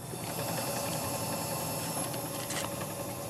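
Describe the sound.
A microfilm machine is being set up at a library. It gives a continuous mechanical whir with a faint ratcheting texture and one brief sharp click near the end.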